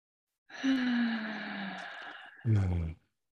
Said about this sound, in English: And inhale through your nose. On the next exhale, you're welcome to breathe out of your mouth.